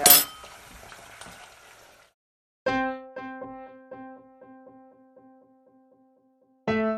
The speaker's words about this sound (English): So shall I add a bit of sugar to it? And much better a teaspoon on the side, I think.